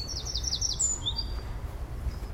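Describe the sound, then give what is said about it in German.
High, quick chirping from wren and tit birds by a small river in the southern Netherlands: a fast run of bright notes in the first second, then a couple of short calls over a steady low rumble. “Unter dem Gezwitscher von Winterkönig und Meise”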